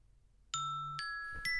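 An alarm clock chimes in three bright electronic tones, each note struck in turn and left ringing, fairly faint and alone.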